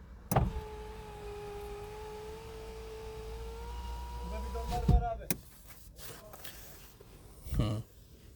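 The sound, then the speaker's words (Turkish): Electric motor whine of car power windows closing: a steady tonal hum runs for about five seconds and ends in a soft thump, followed by a quieter stretch and one more brief burst near the end. “Doğal sesler. Camları kapatalım.”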